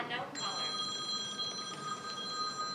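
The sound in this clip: A telephone rings with an unknown caller on the line. The ring is a steady, sustained electronic trill that starts just after the beginning and holds at an even level over faint background noise.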